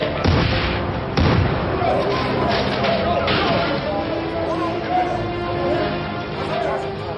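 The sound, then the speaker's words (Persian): Bomb blasts during a police raid scene in a drama: two loud, sharp bursts near the start give way to dense, continuous rumbling and crashing noise with voices throughout. “دریافت شد. بمب ساتی پرتاب شد.”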